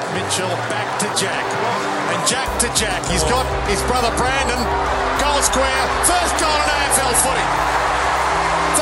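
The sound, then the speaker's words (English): Crowd noise as Brandon Jack kicks his first goal for the Swans in 2013. A broad, sustained roar swells and holds loudly, with voices mixed into the din. “What you just heard there is the sound of Brandon Jack kicking his first goal for the Swans in 2013.”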